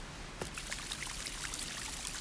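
Stream water flowing through Arita, a town in Saga Prefecture, Japan: a faint, steady wash of trickling and burbling that carries on without a break and has no voices over it.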